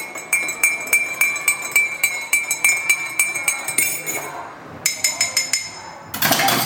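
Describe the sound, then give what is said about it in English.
Teaspoon stirring in a cup, many quick bright metallic clinks at a steady, even pace, loud and alone, pausing briefly before a few more taps and a rush of noise at the close. “Well, if that's not a teaspoon stirring in a cup, I don't know what it is”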